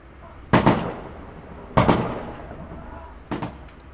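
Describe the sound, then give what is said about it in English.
Celebratory gunfire shot into the air in the streets during the early hours: three sharp bursts spaced well apart, each a quick double crack, loud against a quiet background hiss. “That's the sound of people firing in the air, chanting on the streets. They were honking horns.”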